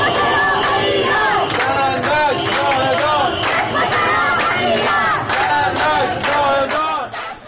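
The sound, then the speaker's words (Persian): Protesters in Ahvaz, Iran, chanting in a large crowd: many voices shout together in loud, sustained, rhythmic bursts that continue throughout, with no pause. “این صدای گروهی از معترضان در اهواز است.”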